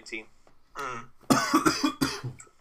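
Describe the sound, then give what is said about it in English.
A bad, harsh cough: two loud, raspy bursts with sudden onsets, preceded by quieter voiced throaty sounds. “Oh, bit of a bad cough, that.”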